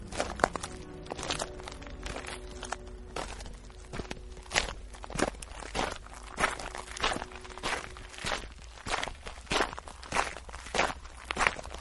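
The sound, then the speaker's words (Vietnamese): Heavy human footsteps heard through a stone door in an echoing underground passage: many thudding steps in a steady, plodding rhythm, fairly quiet, with a low hum under the first part. “Tiếng bước chân tuy ở xa, nhưng ghé tai qua cửa là nghe rõ một một, không lầm được, đúng là tiếng chân người đi, nghe rất nặng nề, như cả ngàn cân dậm xuống vậy.”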